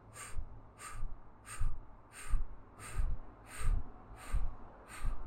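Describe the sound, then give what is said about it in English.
Eight equal, forceful exhalations are pushed through rounded lips in a breathing exercise with navel contractions, each a short airy puff in an even, steady rhythm. “So inhale through the nose. Exhale eight equal strokes through rounded lips.”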